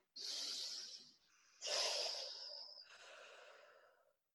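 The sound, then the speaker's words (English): Slow, deep breaths drawn in and let out during a guided relaxation exercise, a few long breathy hisses in sequence with short pauses between, soft and unhurried with no talking. “Another deep breath. One more. And just one more very, very deep breath.”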